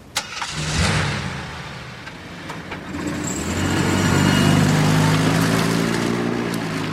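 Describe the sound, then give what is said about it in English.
A car engine starts and then runs and revs as the car drives off, a low engine hum that swells and grows louder toward the middle and stays strong to the end. “Tammy watches Lisa drive away.”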